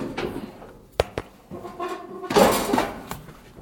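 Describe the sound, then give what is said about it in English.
Dishes and cutlery clatter as someone rummages for a spoon, with a few sharp clinks and knocks followed by a louder, busier jumble of scraping and rattling ware. “I need a spoon. Can't really get to the spoon because there's a flipping load of stuff in the road.”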